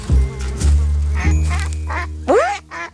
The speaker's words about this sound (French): Tiens, des canards.